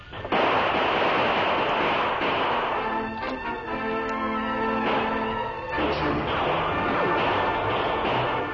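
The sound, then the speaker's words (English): Gunfire exchanged in a shootout between people inside a shack and outlaws outside: dense, loud, overlapping cracks and crashes running almost continuously, with a few brief dips. “For some time, shots were exchanged between those in the shack and the four outlaws on the outside.”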